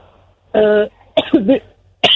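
A person coughs in a few loud, throaty, voiced bursts with short pauses between them. The middle burst wavers in pitch.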